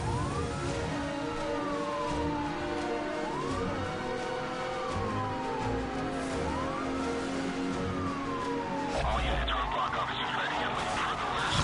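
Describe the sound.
Police car sirens wail during a chase in a racing video game, with rising and falling sweeps repeating over a steady engine roar and a sudden burst of noise near the end.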